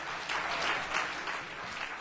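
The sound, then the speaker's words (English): An audience at a religious gathering claps its hands in a dense, steady patter of many overlapping claps, moderately loud and without talk. “Would you clap your hands just for a moment?”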